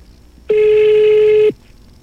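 A telephone rings and goes unanswered: a single steady electronic tone, loud and even, lasting about one second and then stopping, alone with no voices.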